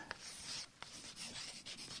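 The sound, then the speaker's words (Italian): Scratchy, rubbing strokes of someone writing a sentence on a board during a lecture, a steady run of rasping marks broken by a few sharp taps, with no talk over it. “Scrivo qui una frase.”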